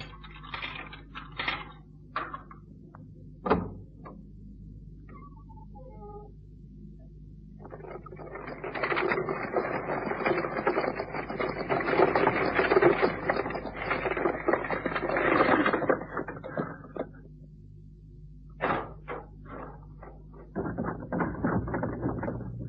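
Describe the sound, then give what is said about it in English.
A locked cemetery gate is opened with a key and closed again at night. A few scattered clicks and clanks lead into a long grinding, ratcheting creak, then more knocks and a shorter metallic rattle at the end. “Why, are you closing the gate?”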